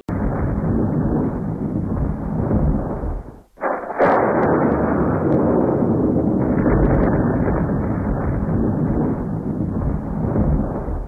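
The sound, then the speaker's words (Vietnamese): Firing squad rifles fire a volley during an execution, with thunder also stated. A loud, sustained rumbling roar drops out briefly near the middle, then a sharp burst returns it to full force, holding loud through the rest. “Tiếng súng nổ, lại một tiếng sét nữa nổ vang trời.”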